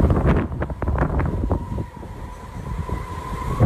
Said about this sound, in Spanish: En Portbou vive la tramuntana. Vive. Vive. Aquí vive la tramuntana. És el pueblo donde más sopla.